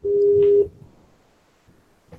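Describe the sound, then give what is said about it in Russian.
A telephone tone sounds while a call is placed to a company: one steady, fairly loud beep of about half a second, followed by near silence with a faint click at the end. “Итак, звоним.”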